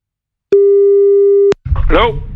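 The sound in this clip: A telephone busy tone after hanging up: a single steady, pure beep lasting about a second starts and cuts off abruptly, and a person then begins talking.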